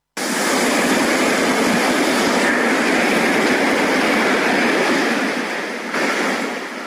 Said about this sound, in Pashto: خو اوس د دغه شار ساحلونه له خلکو تشتي او د سمندر څپې خاموشي